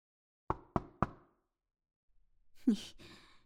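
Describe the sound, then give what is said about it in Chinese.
Three sharp, evenly spaced knocks on a door ring out loudly, then after a pause comes a breathy sigh. “没听到外面已经有人敲门了？”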